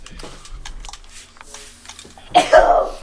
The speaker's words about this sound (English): I have to sneeze.